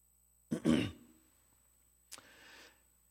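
A person with a tickle in the throat clears it twice: first a loud, raspy rasp, then after a pause a shorter, quieter hack trailing off into a soft breath.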